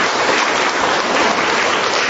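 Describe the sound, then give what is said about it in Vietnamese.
Crowd applause welcoming attendees who came from other places: dense, loud, continuous clapping that stays even throughout the short stretch. “chúng ta hân hoan chào đón tất cả những anh chị em ấy một tràng pháo tay.”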